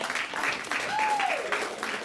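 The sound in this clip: An audience applauds at an improvised comedy show. Steady, dense clapping from the crowd goes on for the whole stretch without any pause.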